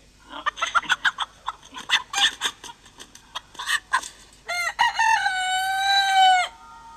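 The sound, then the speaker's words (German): A rooster gives a quick run of short clucking notes, then one long, loud tonal crow that holds steady before cutting off. “Könntest du ihn mal krähen lassen?”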